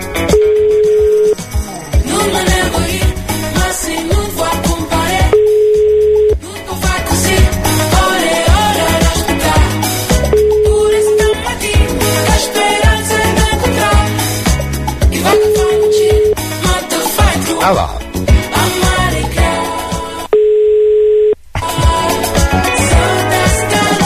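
Telephone ringback tone heard while placing a call: a steady single-pitched tone sounds in five evenly spaced bursts, each about a second long with roughly four-second gaps, over loud continuous music.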